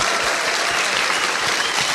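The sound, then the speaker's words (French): Audience applause at the close of an event during the thank-yous: loud, dense and continuous clapping with no pauses from start to end. “Déjà applaudissez-vous, merci à vous d'avoir merci été là.”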